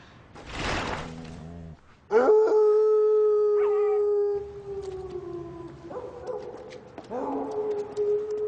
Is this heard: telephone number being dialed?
no